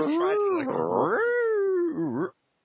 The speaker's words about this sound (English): sounds like this cat's making like theremin noises. Like, what's going on here?